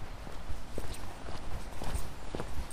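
Footsteps of a person walking in a valley: many steady, evenly paced steps with soft thuds, heard over a constant hiss.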